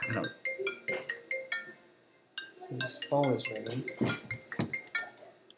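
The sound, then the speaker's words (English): A mobile phone ringtone plays as a run of bright, repeated chiming tones at the start, followed by people talking. “Yeah, that was my phone ringing.”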